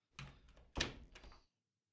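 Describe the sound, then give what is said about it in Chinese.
A door is being shut, heard as a few soft, muffled thuds and rattles, the middle one strongest, followed by silence. The sound is faint throughout. “把门关上了”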